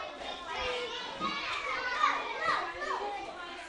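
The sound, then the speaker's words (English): Young children play noisily at an early childhood centre, with many small voices chattering, calling and shrieking over one another in a steady, fairly faint hubbub. “Children starting another day of early childhood education. It's noisy and sometimes a bit messy, but they enjoy it and research shows it's good for them.”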